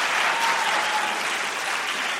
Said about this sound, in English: Rick has to respond. He's wisely letting the applause die down before he speaks. Mike, I hate to step on the applause line